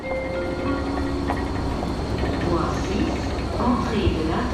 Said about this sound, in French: Bienvenue à la gare de Lausanne. Ici aujourd'hui, des dizaines de milliers de personnes se bousculent tous les jours au milieu d'un gigantesque chantier.